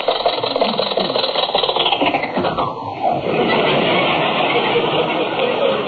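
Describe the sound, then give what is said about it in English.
An old jalopy car engine running while stopped at a red light, a rough, continuous clattering rumble that dips briefly midway before carrying on steadily. “Well, you don't have to shut off the engine to stop.”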